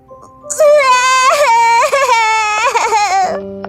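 A child crying at a bakery counter: loud, sustained, high wailing sobs that run for about three seconds with wavering pitch, settling into a lower tone at the very end.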